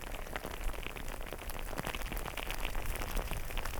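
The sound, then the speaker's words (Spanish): Hail falls in front of a lake, a dense, continuous patter of countless small hard impacts forming a steady hiss with no pauses or voices. “el granizo se hace un poquito más grande. Vamos a meternos enfrente del lago.”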